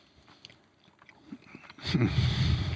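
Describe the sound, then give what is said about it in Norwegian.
A person biting into a pastry: faint soft sounds at first, then louder, moist crunching and chewing that takes over toward the end. “Jeg tok en bit til, jeg ikke ferdig”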